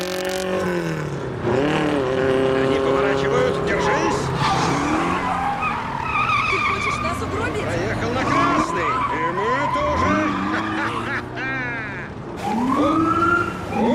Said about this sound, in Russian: Маленький автомобиль прокладывает дорогу через ночной трафик.